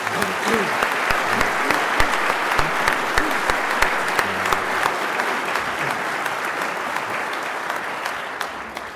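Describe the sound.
Audience applause welcoming Bob Watson: dense, sustained clapping from many hands, steady throughout, with a few sharper individual claps standing out.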